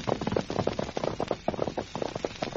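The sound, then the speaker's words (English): Horse hoof beats, a radio drama sound effect, form a rapid, steady rhythm of many hollow clopping thuds that continue throughout. “Hoof beats beyond that bend in the trail.”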